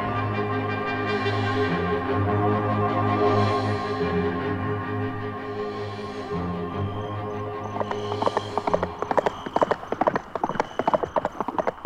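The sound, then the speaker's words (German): Horse hoofbeats during a ride through thickening fog near a river: a rapid, loud run of many clip-clop hits starts about two-thirds of the way in and follows a steady tonal background. “Ist Winnetou sicher, dass wir nicht im Kreis reiten?”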